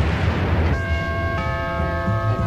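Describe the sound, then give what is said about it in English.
A doorbell struck by a gunshot: a sudden bell-like chime bursts out and rings on in steady, sustained tones. A second strike partway through brightens the ringing over a low rumbling background. “how many times have I told you not to shoot the doorbell? It voids our lease!”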